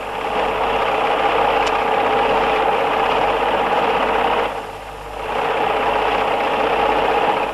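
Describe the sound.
A sewing machine stitching cloth runs as a loud, continuous whirring drone that briefly drops in level near the end before picking back up.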